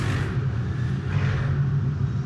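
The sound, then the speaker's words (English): A car with a huge engine passes along a city street, giving off a deep, steady engine rumble with a throaty low drone that holds even in level, with no voices. “I got wild cars in my street. this is all day, man. It's either sirens or cars with huge engines. This is city life, baby.”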